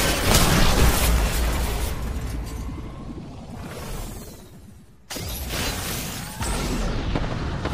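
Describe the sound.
Gunfire and explosive bursts from a fight in the video game Apex Legends: loud, dense clatter and booms that thin out briefly near the middle, then resume abruptly at full force.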